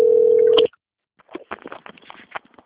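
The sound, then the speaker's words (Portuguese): A telephone tone on a line receiving a transferred call: one sustained mid-pitched beep that cuts off abruptly, followed after a pause by a flurry of soft clicks and handling noises. “Você transferiu a ligação aqui para mim. Eu vou atender e vai desligar e eu te mando.”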